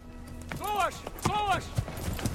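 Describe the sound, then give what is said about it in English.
Horses' hooves clop as Pict warriors ride away on horseback, a run of soft, repeated hoof beats under voices, with a couple of louder tonal swells. “Gorlokon watches as Etain and her fellow Pict warriors ride away on horseback.”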